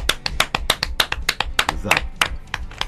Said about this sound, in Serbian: Možemo li ovako jedan uživo aplauz?